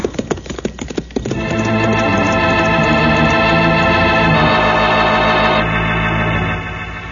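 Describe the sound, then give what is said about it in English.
Horses galloping hard on a ride to a house, their hoofbeats fast and clattering for about a second before a loud, steady wash of sound covers them for the rest. “I'm going to ride to that house as fast as possible.”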